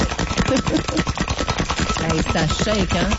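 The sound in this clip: Ice rattling hard in a cocktail shaker, a rapid, steady, rhythmic clatter that runs loud throughout, with a voice audible over part of it.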